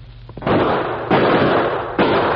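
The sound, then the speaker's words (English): Three loud gunshot effects in a radio drama, shots fired from a clump of trees: each a sudden, harsh noisy blast that rings on until the next, in an uneven rhythm. “Shots come from clump of trees to left.”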